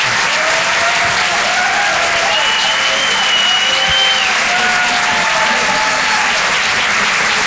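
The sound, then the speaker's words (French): Audience applause for a comedian at a comedy club: loud, sustained clapping from start to finish, with several high whistles cutting through the dense clatter. “Faites un maximum de bruit, s'il vous plaît, pour Gaëtan Husson.”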